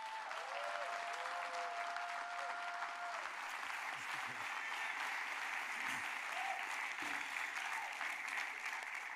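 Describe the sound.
The audience at King's Church applauds a guest pastor as he is welcomed to bring the word. The clapping is dense and even, holding steady at full strength throughout.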